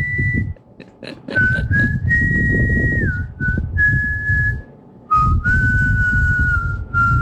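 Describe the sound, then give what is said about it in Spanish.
A person whistles a tune with vibrato, holding clear, high sustained notes that step up and down between short pauses. A low, rumbling background runs underneath. “Es que hacer ese vibrato en el silbido no es así nomás.”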